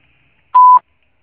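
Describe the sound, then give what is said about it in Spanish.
A single voicemail beep before a message is recorded: one steady, pure mid-pitched tone lasting about a quarter second, heard alone between silences. “Después de tono, grabe su mensaje.”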